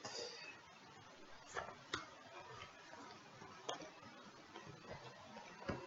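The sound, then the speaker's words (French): Tarot cards are cut and drawn after shuffling, heard as a few faint, sharp card taps and snaps scattered over a quiet, soft background. “Allez, si on y va, les cartes sont mélangées, on va couper et je vais tirer tout ça.”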